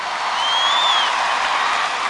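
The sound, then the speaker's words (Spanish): Audience applause for the accompanying orchestra at a live festival concert in Viña del Mar, a steady, dense patter of clapping with a high whistle briefly cutting through it. “Quiero pedirles que el primer aplauso de esta noche se lo regalen a los chicos de la orquesta que me acompañan.”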